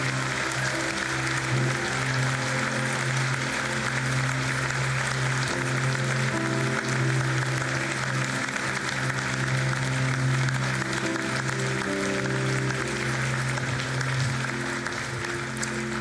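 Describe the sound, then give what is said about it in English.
Audience applause welcomes a pastor arriving in a chapel lobby: continuous, even clapping that holds at a steady level throughout, with sustained low tones beneath it. “Could we join together and give a big welcome to Pastor Nate Clark as he comes?”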